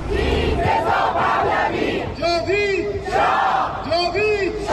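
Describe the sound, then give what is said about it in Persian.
Iranians living in Italy shout the names of protesters killed in the crackdown. Loud, repeated chanted cries rise from a dense, noisy crowd, with strong voiced shouts clustering in the second half. “ایرانیان مقیم ایتالیا پس از 6 ماه از کشتار 18 و 19 دی همچنان تلاش میکنن با در دست داشتن عکس جاوید نامان و فریاد زدن نامشون به جامعه جهانی یادآوری کنن”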